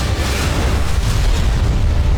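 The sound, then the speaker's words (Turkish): An Aselsan Tolun P bunker-busting guided munition strikes its target in a test, giving a heavy, sustained low rumbling boom that rolls on without a break. “Savunma sanayinin yeni gözdesi sığınak delici Tolun P hedefi tam isabetle vurdu.”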